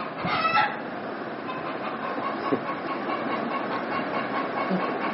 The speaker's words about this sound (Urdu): چلو بھائی اشعار سے پہلے آپ لوگ مرغے کی آواز سن لیں.